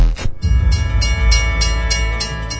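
A train rolls along railway tracks with a steady low rumble and regular bright metallic bursts, heard alone without talk.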